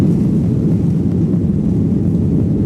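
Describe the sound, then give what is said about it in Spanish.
Steady low roar of an Iberia airliner in flight, a loud, even, deep rumble with broad hiss above it and no change throughout. “Y hoy nos hemos subido de nuevo a un avión de Iberia.”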